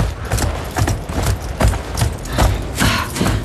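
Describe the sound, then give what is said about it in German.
Horses' hooves clip-clopping as the animals are led into a stable: many loud, evenly spaced hoof strikes in a steady walking rhythm, with no voices. “Bringen wir die Pferde in den Stall.”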